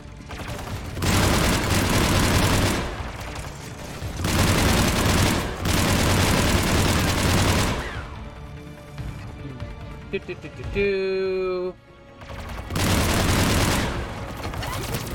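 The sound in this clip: Rapid automatic gunfire in a video game near the Geth base comes in a few long, loud bursts, with quieter gaps between them where a voice is heard talking.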